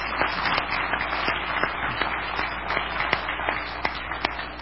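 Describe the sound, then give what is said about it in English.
A church audience claps for the worship team, a steady wash of many hands clapping together throughout, with no voices over it. “But thank you again for leading us in worship in that way. May I give a hand again?”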